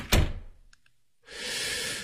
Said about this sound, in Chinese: 大叔走到门外，恋恋不舍地回头看了一眼，才关门离开。